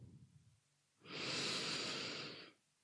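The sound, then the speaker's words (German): A single deep, slow breath taken during a guided relaxation exercise: an airy rush that swells and holds for about a second and a half, then fades. It is soft and heard alone, without talk. “Nimm erstmal drei ganz tiefe Atemzüge.”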